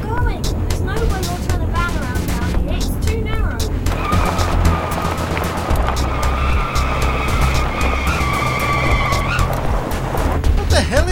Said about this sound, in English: You're driving us down a bloody dirt track!